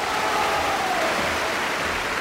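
Applause from a party crowd: dense, even clapping that runs without a break at steady loudness, with no voices standing out.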